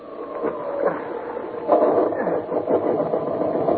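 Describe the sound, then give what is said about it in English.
A motor sputters into life and keeps running with a churning, uneven mechanical chug. The sound is fairly loud and thin, swelling partway through and holding steady after. “I'm going to make another attempt to get that motor working.”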